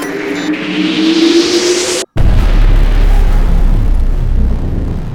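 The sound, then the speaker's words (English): A computer exploding sound effect: a rising electronic whine builds for about two seconds and cuts off abruptly. A loud, sustained rumbling blast follows. “The computer exploded.”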